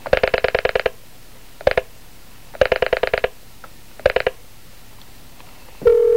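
Touch-tone telephone dialing: several quick bursts of rapid keypad beeps separated by short pauses, ending in a steady continuous tone.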